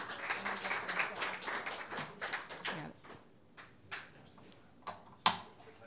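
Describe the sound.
An audience applauds to welcome a songwriter to the stage. Dense, rattling clapping thins out into a few scattered claps and fades, with no voices over it.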